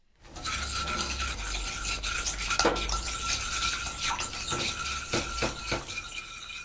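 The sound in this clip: Ingredients, all except sesame, are stirred together in a pot, making a continuous soft scraping and rubbing. A few sharper clinks and scrapes stand out over the steady churn.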